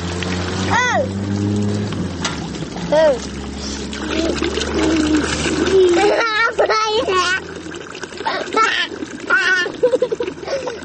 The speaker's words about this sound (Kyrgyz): Чоң жолдун кесиришиндеги суусу токтобой аккан суу түтүгүнүн жанында эки чыт курсак бала баклашкаларга суу куюп аны кайра төгүп ойноп турушат.